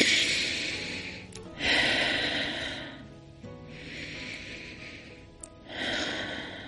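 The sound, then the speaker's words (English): Slow, deep breathing, a few long airy inhales and exhales with short pauses between them, alone with no talk. “I want to pause with you at the beginning of this episode and ask you to put your hand on your heart and take a big, deep breath in with me.”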